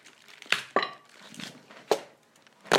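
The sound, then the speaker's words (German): Pieces are snapped off a Toblerone chocolate bar, producing a few sharp, crisp cracks spaced unevenly, with soft crinkling between them. “Perfekt abgeteilt. Mhm. Weil wenn du es nämlich andersrum biegst, brechen immer zwei Stücke ab. Mhm. Und das ist für dich als großer Mensch mit großem Mund kein Problem. Aber mhm. kleine Menschen mit kleinem Mund haben mit zwei Stücken Toblerone so ein Problem.”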